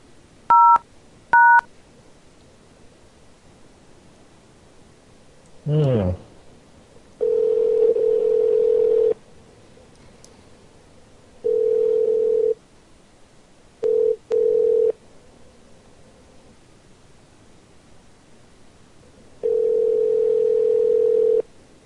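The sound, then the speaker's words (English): A call to a Hollywood, California motel opens with two short touch-tone beeps and a brief sweeping chirp. Unusual ringing follows as a low, steady buzzing tone in several bursts of uneven length, separated by irregular silent gaps. “Rather strange ringing.”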